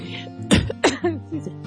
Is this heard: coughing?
yes